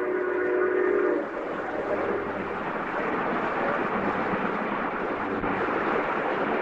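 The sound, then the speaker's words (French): A steam locomotive passes through countryside, opening with a short, bright whistle blast. A loud, continuous rumble and clatter of the train follows and carries on steadily to the end, with no voices. “parfois on entend tout simplement un train qui passe comme ça. En l'occurrence là, c'est une locomotive à vapeur.”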